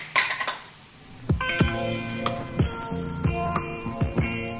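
Pots, pans and cutlery clinking while cooking, with food simmering and a salad being made: many sharp metallic clinks and knocks in an irregular rhythm, several leaving bright ringing tones that hang between strikes, with no talking.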